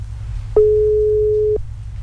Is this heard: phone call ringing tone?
yes